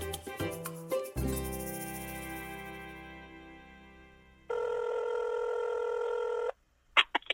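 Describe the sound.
A telephone call is dialed and rings: a few quick dialing tones come first, then a steady, fairly loud ringback tone holds for about two seconds, followed by a couple of short clicks.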